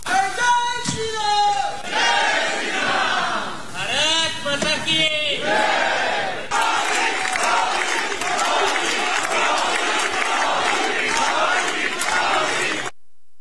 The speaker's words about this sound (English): Earlier, the Indian community in France welcomed Prime Minister Modi with the message Bonjour Modi or Hello Modi and chants of Bharat Mata Ki Jai.